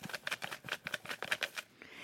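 Cut-out paper name slips rustle as they are shuffled inside a small container, making many quick, irregular, crisp papery bursts with no voices.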